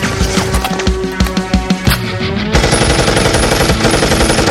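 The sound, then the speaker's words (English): M249 light machine gun firing: rapid, loud bursts of shots for about two and a half seconds, then a continuous dense roar of automatic fire with a high ringing tone above it. “I'll cover you with the 249.”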